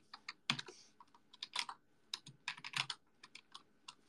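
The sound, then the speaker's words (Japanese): Fingers type on a computer keyboard in irregular bursts of quick, crisp keystrokes separated by short pauses. The clicks are fairly quiet and no voices are heard. “喋りながら文章打つって難しいんだな。”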